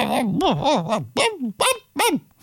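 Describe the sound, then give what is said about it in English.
A voice imitates a cuckoo's call with several sung, whistle-like syllables, each arching up and down in pitch, moderately loud and alone with short gaps between them. “he says, "Thank you, Cuckoo." And the cuckoo goes,”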